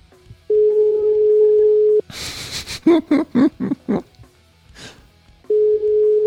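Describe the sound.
Ringback tones of an outgoing phone call played over Bluetooth: a steady, mid-pitched tone sounds alone, breaks off into a stretch of voices talking and laughing, then returns at the end.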